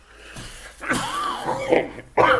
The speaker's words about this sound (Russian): Я прошу прощения за кашель, это простуда